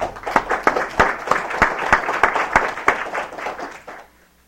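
Audience applause welcomes a guest writer from New York during a legislative floor session: dense clapping with many sharp individual claps, sustained for several seconds, then thinning and fading out near the end.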